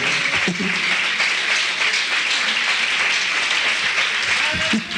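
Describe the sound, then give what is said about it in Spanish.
A church audience applauds with dense, steady clapping that fills the whole clip at an even level, with a few voices mixed in. “¿Cuándo pueden dar un aplauso al Señor? Bendito sea el Señor, ¿me entiende?”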